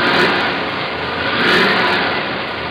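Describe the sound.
A customer's car engine revs through a performance exhaust fitted for more sound, giving a loud, rough, continuous roar that swells briefly midway and then eases slightly, with no talking.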